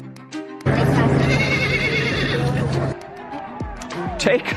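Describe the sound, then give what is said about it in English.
Wild horses neighing during the annual pony swim across a channel on Virginia's Eastern Shore, where about 150 horses are guided through the water. Repeated shrill whinnies mix with people talking, and a steady low hum runs through the first half. “About 150 wild horses were rounded up and then guided across the channel.”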